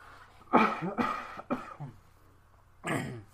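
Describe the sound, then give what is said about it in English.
Throat clearing from someone with something caught in the throat: several rough, raspy bursts in quick succession, then one more after a short pause, with no talk around them. “Sorry, I have something in my throat.”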